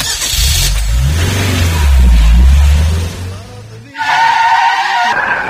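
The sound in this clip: A car engine revs with a deep, swelling roar that falls away, then a sharp, high screech of skidding tyres breaks in near the end, loud throughout.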